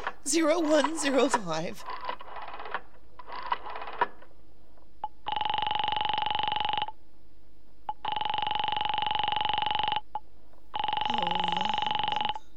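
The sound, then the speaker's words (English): A telephone is dialed after a brief spoken line: a short run of clicking bursts, then three long, steady ringing tones separated by pauses. “Oh, for heaven's sake! I've no time to be dialing...”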